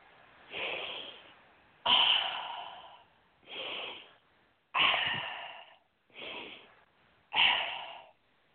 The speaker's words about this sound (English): Take a nice deep breath.